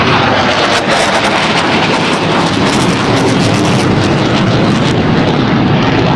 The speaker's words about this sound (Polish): No to się stało i to mam wrażenie, że tuż nad naszymi głowami przeleciały te F-y, cztery F-y.